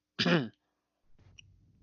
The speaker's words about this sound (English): Oh no, sorry. My throat just caught a little bit.